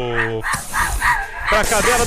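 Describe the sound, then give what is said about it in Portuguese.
A dog barking sound effect played on a Brazilian radio program, heard as a quick run of several loud, sharp barks following a brief tonal, howl-like opening. “você tá liberando os cachorros, cara. De novo, mais uma aqui pra cadela do”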